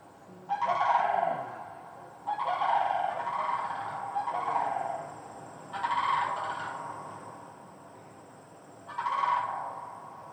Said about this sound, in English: Yeah, it was a sandhill crane. Sorry, I forgot to tell you what it actually was. It's not a pterodactyl, it is a sandhill crane. So they make those calls